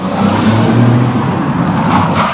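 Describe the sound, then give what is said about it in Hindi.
A car drives through Delhi evening traffic, its engine a steady mid-range hum with a soft whir and a faint rise in revs, alone without voices. “अब भाई शाम के वक्त दिल्ली के traffic से तो आप सब ही परिचित हैं। नमन अपनी कार में चिढ़ता हुआ गुप्ता मेडिकल स्टोर की ओर बढ़ा।”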